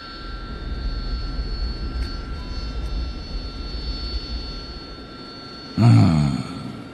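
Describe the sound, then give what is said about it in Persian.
An airplane's engine drones steadily after takeoff while the landing gear is raised. A low, even roar runs throughout, and a brief, louder low thump stands out near the end. “چرخ بالا لطفا. چرخ بالا.”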